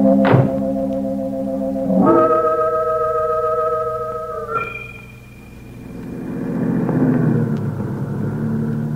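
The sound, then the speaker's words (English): A car drives off after picking up a hitchhiker: a steady, humming engine tone broken by a few thuds, then a low rumble that swells as the vehicle pulls away, with no voices. “Hey, driving north? Looking for a ride, are you? Yeah, looking to get a hitch. Okay, hop in.”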